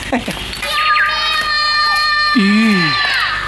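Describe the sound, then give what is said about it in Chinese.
Child crying, a high wavering wail with drawn-out sobbing cries that carries throughout, with a voice speaking briefly near the end. “咦，悟空，你听，确实是个孩子。”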